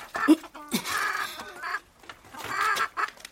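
A chicken held up by its legs clucks in a few short, squawky bursts with brief pauses between them, loud and alone with no voices.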